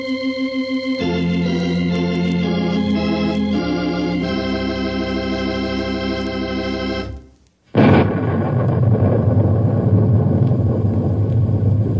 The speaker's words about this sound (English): I'm sure you recognize that sound you just heard. In fact, you can still hear it a little bit, I guess. It's thunder.